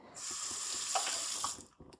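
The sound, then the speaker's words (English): Tap water runs over a food processor blade being rinsed after making coconut date bars: a steady hiss of running water lasts about one and a half seconds, then stops, followed by a few faint knocks. “I do have to rinse the blade.”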